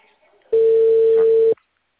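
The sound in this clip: A telephone ringback tone sounds as a call is placed: a single steady, pure mid-pitched beep lasting about one second, loud and unwavering, starting and stopping abruptly with near silence around it.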